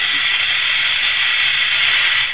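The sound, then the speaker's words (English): A hot solution, just below boiling, poured into another solution in a laboratory, giving a loud, steady hiss that runs unbroken and then cuts off at the end. “Stand back now. I'm about to add the hot solution to the other.”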